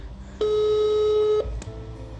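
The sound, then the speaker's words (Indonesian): A telephone ringback tone plays while a call connects: one steady, fairly loud ring lasting about a second, followed by a short click, over faint background noise. “Coba kita telepon ya. Nah, ini udah mulai nyambung nih teleponnya. Mudah-mudahan segera diangkat lah.”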